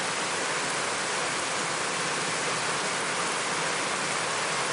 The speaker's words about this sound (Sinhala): දැන් එනවා දැන් එනවා එනවා මෙහෙ ටිකක් වහිනවා